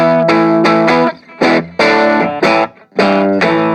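Distorted electric guitar through an Orange Crush 20RT amp with the middle control pushed up, giving a mid-heavy, focused tone as a riff of loud chords is struck in rhythm, separated by brief choppy gaps.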